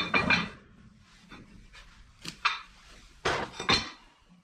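Metal burner plates are lifted off a wood cook stove, making several sharp clanks and scrapes in irregular bursts, some in quick pairs, separated by quiet gaps.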